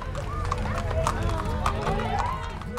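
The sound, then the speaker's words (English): Crowd noise and voices at a high school homecoming parade of trucks, cars and horses passing along a town avenue, with a busy, continuous murmur and scattered hoof-like clops. “That's the sound of the Montezuma Cortez High School homecoming parade as it moved along Montezuma Avenue last weekend in Cortez. And it was a pretty darn impressive procession. We're talking trucks, cars, and horses.”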